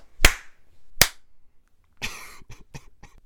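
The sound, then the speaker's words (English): A group hand-clapping on a 3-2-1 countdown, out of sync: two sharp lone claps about a second apart, then a noisy burst and a quick scatter of several more claps. “Are we going to do the 3-2-1 clap?”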